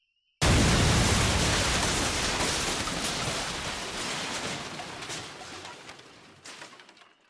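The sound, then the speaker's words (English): An explosion of a set of explosive charges: one sudden, loud, broad blast that rumbles and slowly decays for several seconds. Scattered crackles come near the end. “Blow it. Big boom.”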